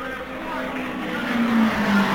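A race car drives past on the track late in the race with a steady, sustained engine drone and whine that swells slightly toward the end.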